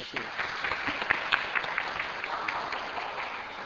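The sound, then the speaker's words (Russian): Audience applause from deputies at a regional state assembly session: the dense, steady clapping of many hands continues through the whole clip at a fairly faint level. “И аплодисменты.”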